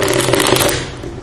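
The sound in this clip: A deck of playing cards being shuffled: a brief dense riffle of crisp rapid fluttering that thins out toward the end, heard alone.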